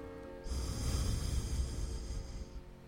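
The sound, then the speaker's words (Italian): Soft nasal breath during an alternate-nostril breathing exercise: a single faint, airy rush of air that swells in after a quiet moment, holds for about two seconds, then fades, heard alone. “apnea, inspiro, chiudo destra, apnea, apro sinistra, espiro,”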